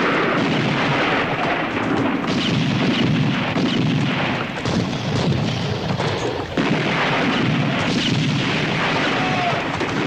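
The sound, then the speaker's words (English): Heavy gunfire and booming bursts as sailors board a schooner and open fire in a sea fight. The battle din is dense and continuous, with many overlapping shots and no clear pauses. “Their sailors climb aboard and open fire.”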